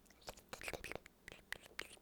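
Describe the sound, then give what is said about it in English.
Close whispering and wet mouth sounds, soft clicks and chewing-like smacks in a quick irregular stream, faint and very near the microphone. “Okay, yeah, that is enough ASMR. We're going to get the old microphone back here if we keep doing that.”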